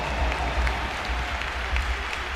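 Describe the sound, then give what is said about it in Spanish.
A crowd at the Bernabéu stadium applauds a football player during a match: a steady wash of many clapping hands over a low crowd rumble, continuous and even. “pero ha acabado haciendo un gol y una pedazo de asistencia y por eso le aplaude el Bernabéu también.”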